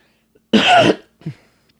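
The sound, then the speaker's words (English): A single sharp, harsh cough, followed by a short, softer throat sound after a brief pause, with near silence around both. “I promise I'm trying not to cough into the microphone.”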